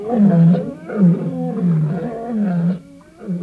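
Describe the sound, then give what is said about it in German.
Lions roar in a series of deep, moaning groans and grunts, several rising and falling calls in succession, loud and alone, from maned lions gathered around another lion feeding on a wildebeest carcass. “Am nächsten bei ihm die beiden Mähnenlöwen. Und alle, die nicht fraßen, stöhnten dieses seltsame Brüllen.”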